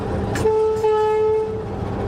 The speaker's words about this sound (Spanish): Aquí tenemos la bocina.